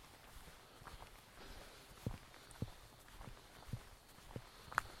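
Faint footsteps walk along the tree line at the edge of a wood on an unofficial local path. A handful of soft, irregular footfalls sit over quiet background hiss.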